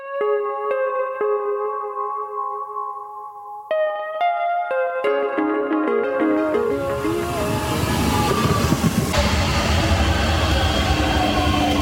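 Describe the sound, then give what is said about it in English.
A train passing: steady tones at first give way to a loud, broad rumble of rolling noise that builds and holds to the end. “And there will be even a train coming from there.”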